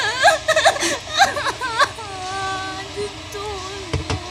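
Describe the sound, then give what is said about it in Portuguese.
A frightened girl crying, with choppy whimpering sobs that give way to a long, wavering, drawn-out whimper. “Chora, minha filha, chora.”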